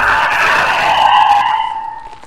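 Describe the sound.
Tires screech as a car skids to a stop, a sustained, loud squeal lasting about two seconds that fades out at the end, with no voices.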